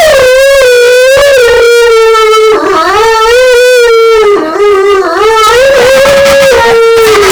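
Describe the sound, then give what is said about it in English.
People imitating a howling dog: a loud, sustained, wavering howl that swoops up and down several times over about seven seconds. “And then I like to do the howling dog.”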